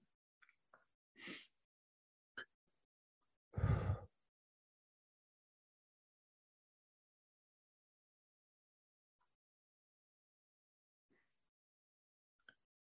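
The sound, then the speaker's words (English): Two brief, deep breath sounds stand out against near silence: a breathy rush of air, then a heavier, louder puff with a low rumble, as if blown close to the microphone. A few tiny clicks follow at a very low level. “I'll just start by taking a couple of deep breaths.”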